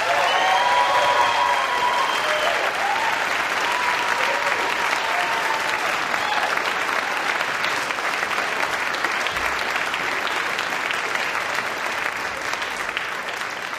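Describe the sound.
Sustained audience applause greets a band taking the stage at a live music event, dense steady clapping for about fourteen seconds, with whistles early on, easing slightly toward the end.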